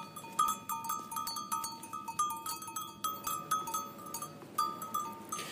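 Many small bells clink and jangle from a flock of sheep and goats grazing on green spring plains of the Daman area toward Ghazni, herded by nomads; dense, irregular bright tinkling continues throughout with no talk.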